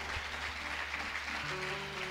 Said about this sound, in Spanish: A ver, denle un aplauso al Señor con todo el corazón.